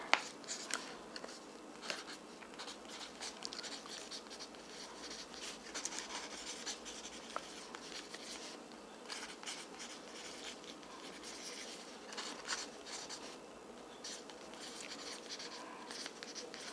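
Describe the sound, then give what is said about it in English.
Handwriting of a short note gives faint, continuous scratchy strokes with small irregular ticks, steady throughout the stretch and without speech. “Okay, I'm going to write this little note to myself. Give me 3 seconds.”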